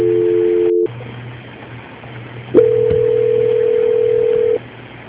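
Telephone line tones play during a call transfer. A steady two-note tone cuts off, leaving a low hum. After a click, a single steady tone holds for about two seconds and then stops.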